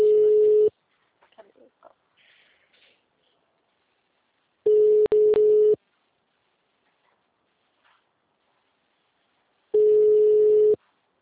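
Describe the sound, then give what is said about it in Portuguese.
Ringback tone of an outgoing phone call placed by a finance company in Pirassununga, Brazil: three steady mid-pitched tones, each about a second long, separated by roughly four seconds of near silence with faint rustling between them. “Chamando.”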